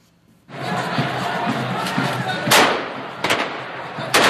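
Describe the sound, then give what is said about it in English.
Bursts of machine-gun fire shot into the air by young men at a funeral at Baghdad's Abu Hanifa Mosque. A few sharp, loud volleys cut through a dense, continuous crowd din. “Hundreds of young men fire machine guns into the air”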